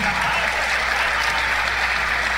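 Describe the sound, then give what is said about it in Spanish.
Audience applause for an accordion player being introduced at a live music performance: thick, continuous clapping from many people, steady and even throughout with no voices over it. “El aplauso para Orlando.”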